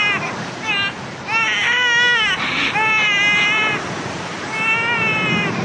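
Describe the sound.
A baby cries in high, wavering wails that come in a few long, loud bursts with short breaks between them.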